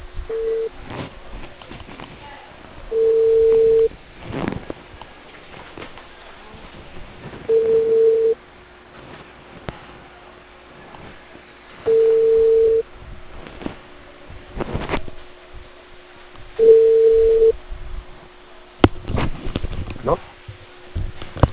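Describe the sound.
Ringback tone of an outgoing phone call to a customer, four steady mid-pitched beeps of about one second each, spaced roughly four to five seconds apart, heard over a narrow, hissy phone line with faint noise between rings.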